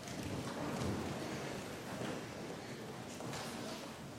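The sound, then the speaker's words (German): A church audience getting up from their seats for the blessing, a steady broad rustle and shuffle of bodies and clothing with faint knocks, continuous throughout and with no speech. “Und nun bitte ich Sie alle zum Segen aufzustehen.”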